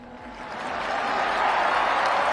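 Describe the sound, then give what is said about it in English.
A crowd in St. Peter's Square cheers and applauds as Pope Francis wishes them a happy Easter. The mass of voices and clapping swells steadily louder, then holds as a broad, sustained roar. “Onlookers cheered as Pope Francis wished dear brothers and sisters a happy Easter.”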